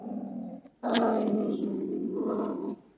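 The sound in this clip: A marten calls with a harsh, growling rasp: a low, throaty burst, a brief gap, then a longer sustained growl that holds steady before cutting off.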